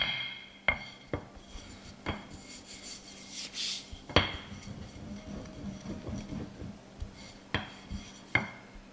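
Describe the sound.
Scallion pancake dough being rolled out thin in a kitchen: soft, rhythmic rubbing strokes broken by several sharp knocks and taps at uneven intervals.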